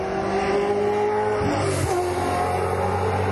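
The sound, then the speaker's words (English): A nicely prepared Porsche 944 Turbo race car, an ex-Bathurst car, drones loudly on a buzzy engine note, with a short crackling burst midway as the pitch drops, then the engine carries on steadily. “It was very nicely prepared, though. 944 turbo. Complete with pop pops.”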